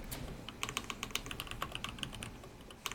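Typing on a computer keyboard to look something up: a quick, irregular run of many light, crisp key clicks, faint and steady, with no voices.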